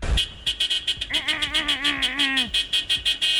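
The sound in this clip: A car horn sounded aggressively: many short blasts repeat in a fast, regular rhythm, with a wavering, sustained tone running through the middle stretch before the rapid toots continue alone.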